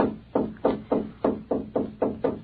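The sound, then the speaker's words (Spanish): Knocking on a door at night: eight evenly spaced, fairly loud raps in a steady rhythm, with no voices. “¡Otra vez! Pues, ¿qué diablo estará tocando? Voy a salir y me voy hasta la vuelta. Y si hallo ese huerco condenado que me anda haciendo esa travesura de tocar la puerta”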